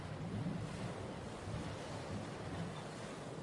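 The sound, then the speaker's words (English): Ocean waves surge and wash in a steady, continuous roar, with a breezy, windy hiss over them and no clear breaks between swells. “Can you hear the seagulls overhead and the crashing waves?”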